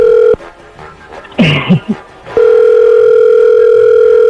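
A telephone dial tone as a call is about to be dialed, heard as a loud, steady electronic tone that cuts out briefly near the start. A short vocal sound fills the gap before the tone resumes and holds to the end.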